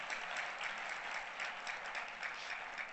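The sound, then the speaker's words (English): Church audience clapping during a service, a dense, steady wash of many hands that holds at an even level for the whole stretch without clear breaks. “Give the Lord a wonderful clap.”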